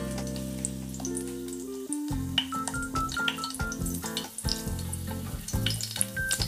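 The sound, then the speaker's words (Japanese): Tube garlic paste frying in hot oil, a soft sizzling crackle of many tiny pops and spits, with a steady melody playing underneath throughout. “油を熱したところに少し入れて軽く炒めるぐらいで大丈夫だと思いますちょっとプチプチってきましたね”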